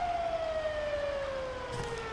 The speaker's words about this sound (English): this siren is getting kind of annoying.